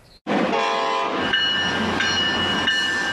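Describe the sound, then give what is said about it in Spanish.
A Brightline passenger train passes, cutting in suddenly after a brief quiet moment as a loud, steady rumble with a sustained tonal horn over it, holding evenly for about three seconds. “tren como este debió llegar en el año 2017 a la estación construida en el centro de Miami”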